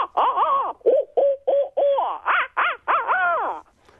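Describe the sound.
Owl calls, a rapid run of loud, wavering, nasal hoots with bending pitch, broken by short gaps and ending abruptly.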